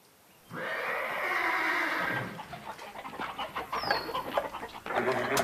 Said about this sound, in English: The chickens are all in a tizzy and the horses have been spooked.